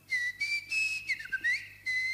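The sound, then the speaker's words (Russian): A person whistles a long, high melodic line in several sustained tones that slide up and down, broken by short gaps, clear and bright over faint low hum, with no talking. “И спустил протяженный свист.”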